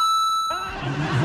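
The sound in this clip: An answering machine tone before a message is left: one steady, fairly high electronic beep lasting about half a second, then a rough, noisy hiss.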